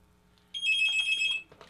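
Telephone ringing with an incoming call on a call-in line: one high, bright electronic trill lasting about a second, moderately loud over a faint low hum, with no voices.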